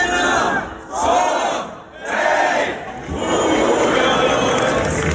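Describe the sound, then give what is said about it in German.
A festival crowd cheers in the town of Bad Hersfeld at the Lullusfest, a loud, sustained roar of many voices that dips briefly a few times before swelling back to full strength. “Typisches Geräusch ab heute in Bad Hersfeld. Ja, es ist wieder die Zeit, es ist Lulusfest.”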